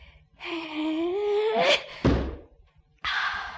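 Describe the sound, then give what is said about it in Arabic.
Stone thrown onto a snake's head: a single dull, heavy thud, preceded by a rising tonal swell and followed after a pause by a short breathy burst. “انا هقدم للحياة دي احسان وارمي الحجر ده فوق دماغ التعبان. هو مشغول بالحية مش واخد باله من حاجة تانية. ياه بق التعبان قد ايه، اما ارمي الحجر عليه”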